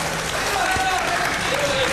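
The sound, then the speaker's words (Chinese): Warm, steady audience applause at a stage comedy performance, a dense even wash of clapping hands that holds at the same loudness throughout, with voices mixed in. “您瞧，这掌声这么热烈”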